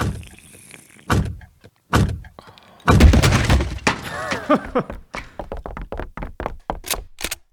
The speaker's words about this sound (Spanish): ¡Tírenle ese puerta abajo! ¡Tírenla abajo!